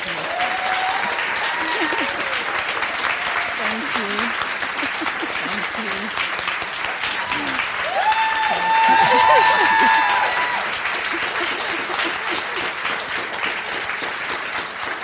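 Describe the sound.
Audience applause welcoming speakers onto a stage, sustained and full for about fifteen seconds and swelling briefly toward the middle, with scattered voices and cheers mixed into the clapping.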